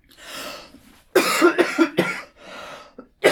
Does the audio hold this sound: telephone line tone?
no

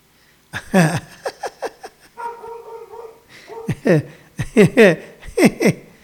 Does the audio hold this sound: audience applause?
no

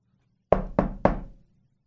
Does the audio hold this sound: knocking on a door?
yes

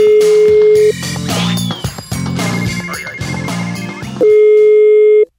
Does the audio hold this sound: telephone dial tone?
yes

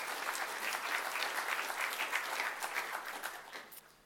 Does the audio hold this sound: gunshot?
no

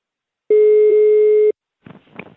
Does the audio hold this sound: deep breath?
no

